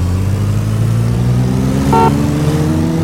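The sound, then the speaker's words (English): Racing car engines rev in a video game race, a loud, steady droning hum that creeps slowly upward in pitch as the cars accelerate. “Start your engines. 3, 2, 1, go! Player four is right behind you.”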